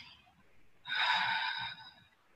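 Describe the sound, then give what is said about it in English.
A deep breath taken during a guided relaxation: a soft, airy intake followed by a longer, louder rush of exhaled air lasting about a second, then fading back to quiet. “take a deep breath in, breathe out for twice as long.”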